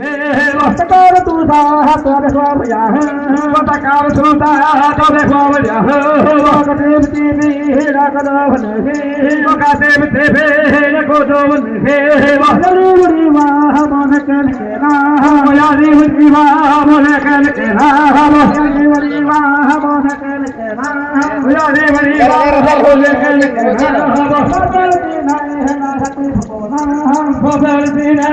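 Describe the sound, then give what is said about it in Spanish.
Voices sing a traditional chant of the Sikuani indigenous people, tied to their traditional healers. The repeating melodic line is continuous and fairly loud for the whole length. “Y para compartir un tanto de eso justamente con los oyentes, esto es el canto de un pueblo sicuani para que don Francisco ahorita nos comparta de qué es lo que allí está sucediendo. Escuchemos este audio.”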